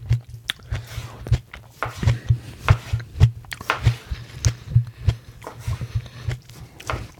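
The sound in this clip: Someone bites into and chews a tomato. Many wet, squishy bites and chews come in a fairly regular rhythm and are close and clear.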